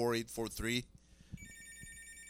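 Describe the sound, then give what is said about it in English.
A telephone ringtone: after a brief burst of talk, bright, steady high-pitched ringing starts and continues to the end, with soft low thumps beneath. “So we are going to play because the phone rang.”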